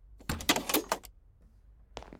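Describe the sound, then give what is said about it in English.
A door being shut and locked: a brief rattling clatter, then after a short pause a single sharp click, all fairly faint. “Let's go and lock it up behind us.”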